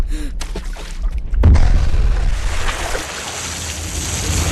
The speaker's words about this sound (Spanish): ¡Sargento! ¡Suelta una granada en la piscina!